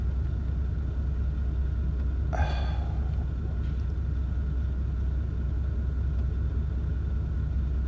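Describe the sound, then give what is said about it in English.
Steady low traffic rumble of engines while stuck waiting behind a stopped school bus, even and continuous throughout. “I'm stuck behind a school bus, and it looks like this school bus is just waiting for the kid who is not there”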